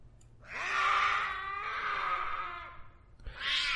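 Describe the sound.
A black cat meows beneath a table: one long, drawn-out wailing cry with a wavering, strained pitch, then the start of a second cry near the end.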